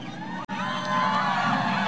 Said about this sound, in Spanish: A ver las mujeres cómo gritan.